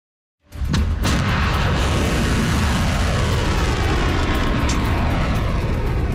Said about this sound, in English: That is the sound of a volley of Iranian ballistic missiles.